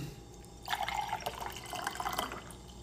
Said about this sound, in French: I'm having a glass of water, personnellement.